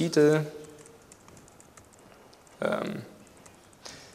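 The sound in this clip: Faint, rapid clicking of a computer keyboard comes from someone typing code, running quietly between short bursts of speech.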